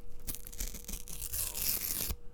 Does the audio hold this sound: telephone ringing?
no